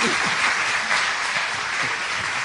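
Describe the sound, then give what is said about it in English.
Audience applause greets a speaker, a loud, steady patter of many hands clapping that runs unbroken throughout. “So would you give him a warm welcome, would you please?”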